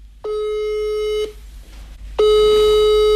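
Telephone ringing tone on an outgoing call: two steady, buzzing tones of about one second each, separated by a pause, the second one louder, over a low constant hum.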